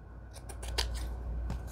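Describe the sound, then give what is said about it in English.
Scissors trim paper for a junk journal in a rapid series of crisp, dry snips, then one last cut after a short pause, with no talk. “And then we trim.”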